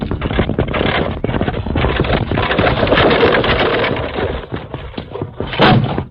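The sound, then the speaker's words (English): Old-time radio sound effect of a runaway wagon wheel rolling down from a trail into a ravine: a loud, rumbling clatter full of rapid knocks that swells and ebbs, ending with a stronger burst. “Kemosabe, what's that? Evidently a runaway wagon wheel. Steady, Silver. Must have rolled off the main trail up above us.”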